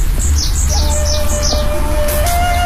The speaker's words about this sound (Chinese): 好，小鸟叫，真的。